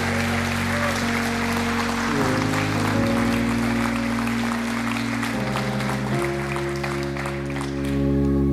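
A church audience on its feet applauds to welcome a guest pastor, with dense, continuous clapping over sustained musical chords that shift a few times.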